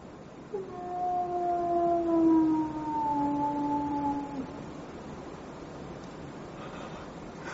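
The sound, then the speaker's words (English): A hound's howl on the moor, played as a drama sound effect: one long, drawn-out, wavering cry with rich harmonics. It holds for about four seconds, sinking slightly in pitch before fading under a low, steady background. “They say it's the cry of the hound of the Baskervilles.”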